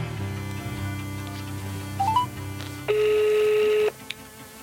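A telephone is dialed to place a call: a few quick beeping dial tones, then a single long, steady ring tone lasting about a second before it cuts off, over a faint low background hum.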